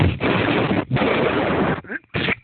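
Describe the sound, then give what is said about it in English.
Gunfire as someone shoots: several loud, harsh sustained bursts of noise separated by short gaps, then two shorter, choppier bursts at the end. “Oh, shit. Someone's shooting at me now.”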